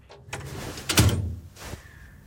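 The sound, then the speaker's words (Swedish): The door of a drying cabinet in a school classroom is opened with a light click, then a heavier wooden thump and a quieter knock, with a soft rattling scrape in between. No voices are heard. “Fröken låser ytterdörren och öppnar torkskåpet.”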